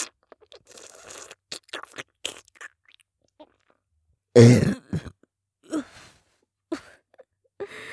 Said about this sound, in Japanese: チーカスがあまりに濃すぎてむせてしまいました。